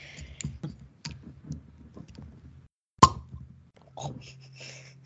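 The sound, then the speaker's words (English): A cork pops out of a bottle of Zinfandel red wine as one sharp, fairly loud pop that stands out from faint clicks and handling noises around it. “So it's a red wine, a Zinfandel. I'm sure it's going to be delicious, and I'm excited to try it. So here we go. We'll try to make a sound out of this cork.”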